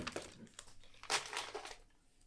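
Snack packets of acai berry snacks are ripped open, giving faint crinkling and crackling plastic rustles in several bursts, with the loudest crumple near the middle.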